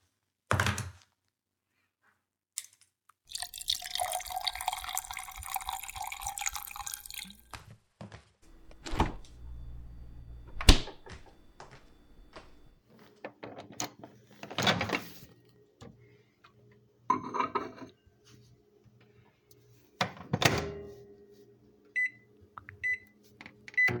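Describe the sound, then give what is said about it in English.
Kitchen sounds of a baby bottle being made: scattered thunks and clatters, a long steady whirring stretch early on, more knocks and handling, and a few short electronic beeps near the end, all fairly quiet. “All right, mommy's gonna make your baba real quick.”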